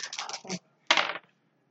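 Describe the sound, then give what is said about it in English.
Three dice rattling and tumbling across a surface during a tabletop roleplaying game: a quick clattering burst of overlapping clicks, a short pause, then a second brief rattle, with no talk over it. “So you roll three of those dice.”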